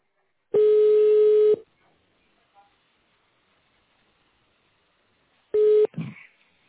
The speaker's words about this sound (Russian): Для соединения с администрацией нажмите цифру 0.